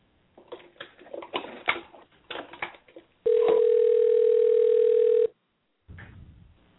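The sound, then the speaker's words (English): A steady mid-pitched telephone tone holds for about two seconds while a call is placed to a guest, preceded by a few softer, irregular sounds and followed by a pause and a brief faint noise. “We'll go ahead and dial him in and see if we can talk to him real quick.”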